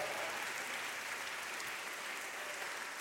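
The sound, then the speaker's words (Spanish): Applause from a worship service audience clapping loudly in praise, a steady dense patter of many hands held at an even, fairly faint level throughout, with no talk over it. “Adórale al Señor con un aplauso fuerte.”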